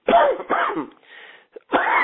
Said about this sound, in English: apologize for the cough